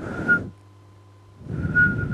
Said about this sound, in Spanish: Por ahí alguien que silba.